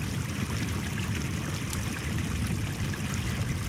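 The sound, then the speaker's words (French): Glacial meltwater from the melting Ujokull glacier runs downhill as a small stream, giving a steady, dense rushing and gurgling wash that stays even in level throughout, with no voices. “Voilà, un petit ruisseau surgit. C'est de l'eau de glacier. Ce qui reste du glacier Ujokull qui est en train de fondre et de dévaler la pente.”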